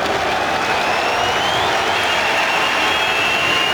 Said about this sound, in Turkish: Evet, Bordo Mavililerden de yükselen alkış.